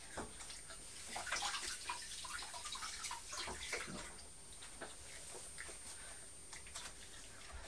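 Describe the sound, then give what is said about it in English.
Tap water runs steadily as a piece of skin is rinsed under it, a continuous hissing splash with brief spattering bursts that stays fairly even throughout. “Let me just give that a quick rinse.”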